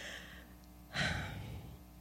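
A single deep breath drawn in sharply, a brief rushing inhale that rises out of quiet background hush and then slowly trails away.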